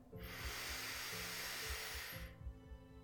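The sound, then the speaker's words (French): Deep inhale through the nose during a guided abdominal breathing exercise: a single soft, airy hiss lasting about two seconds that then stops, over a faint steady low hum. “On inspire profondément par le nez et on gonfle l'abdomen.”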